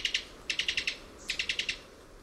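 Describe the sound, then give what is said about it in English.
A Cuban tody gives a faint staccato call of quick, high, clicking notes in tight bursts: two, then five, then five more. “This staccato call comes from the throat of a Cuban toady.”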